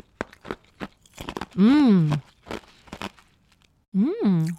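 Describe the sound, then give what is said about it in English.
Ice is crunched between the teeth in a run of short, crisp bites. Two long, drawn-out vocal hums rise and fall between the crunches. “I'm going to have some ice now.”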